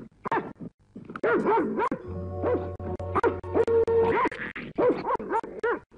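Cartoon dog barking in a Kurdish animated series: many short yapping barks come in bursts, with a low steady drone running through the middle stretch.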